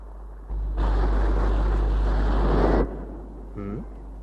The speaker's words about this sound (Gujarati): પાણીના મોજા કેવા ફૂફાડા મારતા ધસમસતા કિનારા સાથે પછડાય છે. અને ફુવારાની જેમ કેટલા ઊંચા ઉછળે છે. ફેનિલ ફેનિલ મોજા.